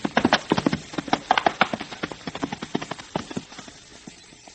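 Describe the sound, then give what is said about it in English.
Hooves of several horses being ridden clip-clop in a steady, brisk rhythm of many hoofbeats that gradually grow softer toward the end. “Junior's riding the horse in the rear with the other three in front.”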